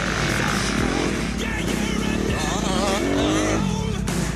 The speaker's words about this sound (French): L'hiver, c'est la saison du sable pour la planète moto. À quelques semaines de l'Enduropal du Touquet, Zef a suivi l'entraînement de la pilote Megan Lombard. Et il a essayé de l'imiter, mais il a vécu un véritable enfer sur la plage.